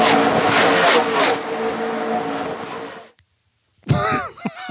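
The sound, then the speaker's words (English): Race cars roar during a race, heard from the pits: a loud, dense engine howl with steady tones runs for about three seconds, then cuts off abruptly into silence before a brief voice. “And then we just went into a sound bubble. The race is still going on. Right behind us.”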